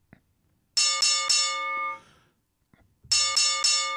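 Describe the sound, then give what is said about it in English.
An ice cream truck bell rings coming down the road: a bright, high chiming tone struck in two bursts of three quick rings each, the first burst ringing out and fading before the second begins. “Oh, you know what that sound is? I don't. Coming down the road. Oh, my God. It's the ice cream man.”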